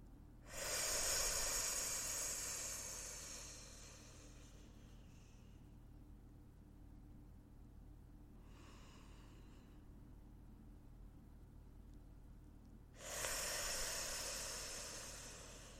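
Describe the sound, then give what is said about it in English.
Slow, deep breaths in and out come as soft, airy hisses: a long, full one at the start, a much fainter, shorter one midway, and another long one near the end, with quiet gaps between. “So I'm going to breathe in and out and do 5 total breaths here.”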